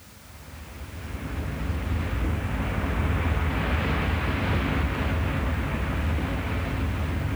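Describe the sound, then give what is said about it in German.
A ship's engine at full power, running full astern with its propellers churning the water, on a tanker that fails to move in the oil-spill incident off La Coruña. A loud, deep roar builds over the first second and then holds steady. “Die Maschine arbeitet jetzt mit äußerster Kraft. Die Schrauben wühlen das Wasser auf.”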